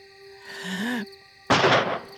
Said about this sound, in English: Boys, quit that shooting!